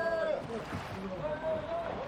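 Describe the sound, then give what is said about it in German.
Boats paddled quickly and quietly through the sea in pursuit of a sperm whale: a continuous wash of sloshing water and paddle movement with other tonal sounds layered over it. “Wir paddelten schnell und lautlos hinter dem Wal her.”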